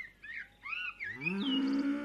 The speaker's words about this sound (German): Umgeben von einem dichten Tannenwald erstreckt sich vor ihnen die Nordweide. Friedlich grasen die Kühe im Sonnenlicht.